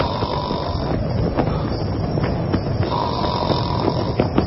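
Snoring from a man asleep in a tent during a thunderstorm, heard as a steady, rough, noisy rumble that continues without clear pauses or breaks.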